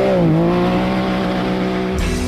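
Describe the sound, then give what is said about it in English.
Steady engine drone of a Can-Am off-road vehicle, a low, even hum with a brief pitch dip near the start and a short burst of noise at the end. “Hit the trails in the ultimate off-road vehicle.”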